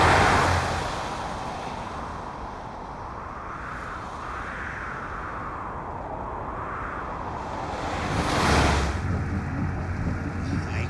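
Howling wind of a sudden snowstorm makes a steady, dense roar with wavering whistles that rise and fall. It swells louder toward the end.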